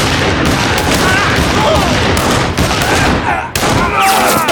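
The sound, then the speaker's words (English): Heavy gunfire from a shooter opening fire crackles in a dense, loud, rapid barrage of shots that barely lets up throughout. “Then he opened fire.”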